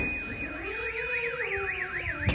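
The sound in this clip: Car alarm triggered by an explosion, sounding a rapid warbling tone that swings up and down in a repeating zigzag over a steady high whine, loud and continuous with no voices.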